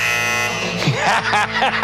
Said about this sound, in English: The clock's coming to the end. The buzzer's about to go.